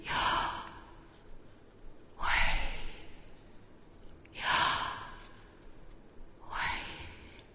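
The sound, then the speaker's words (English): Slow breathing in and out: four long, airy breaths, evenly spaced with quiet pauses between them, soft and breathy with no talk. “Sounds like breath, doesn't it?”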